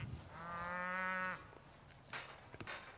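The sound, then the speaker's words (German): A breeding bull in a cattle herd lets out a single low, drawn-out moo lasting about a second, fairly faint, followed by soft rustling and scattered small knocks. “Bernie ist der Zuchtbulle in der Herde und letztendlich unberechenbar.”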